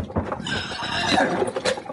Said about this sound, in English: hold on to them horses.